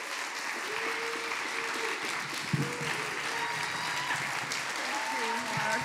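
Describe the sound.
A church audience applauds during a 40th anniversary service, giving a steady wash of clapping that holds at an even level throughout, with voices heard over it.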